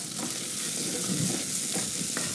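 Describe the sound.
Smoked tofu sizzling in a pan as it is scraped and stirred, a steady crackling hiss with soft scraping strokes, fairly faint and without speech.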